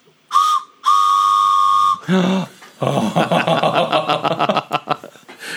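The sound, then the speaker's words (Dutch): A train-themed toy whistle is blown in two steady, shrill blasts, a short one and then a longer one. A burst of rapid, uneven noises follows. “En op de andere kant staat een quote: I suppose I've always been in love with trains. Een quote van Walt Disney. En als je erop blaast...”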